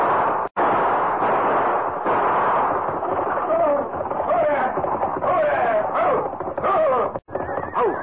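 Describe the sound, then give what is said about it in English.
Gunshots in a stagecoach robbery: a few sharp cracks punch through a dense, continuous rumbling din, with voices faintly mixed in. “Let's go. I'm ready. Come on and start shooting.”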